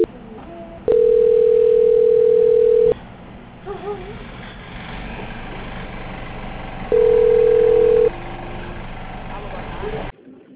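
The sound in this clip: Call transfer hold tone on a bank's phone line: two long, steady beeps, the first about two seconds and the second about one second, over a constant hissing, narrowband line background.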